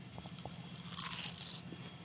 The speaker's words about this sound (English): I have these phenomenal kale chips that have mustard on them. And they're oven-baked, so they're not fried.